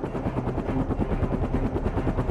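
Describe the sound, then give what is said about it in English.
Rotor chop of an MD-500, a small single-turbine helicopter with five blades: a rapid, even thumping over a continuous engine whine, loud and steady throughout with no voices. “So the helicopters we used, they're called MD-500s, small helicopter. They're for four passengers and one pilot, single turbine, five blades.”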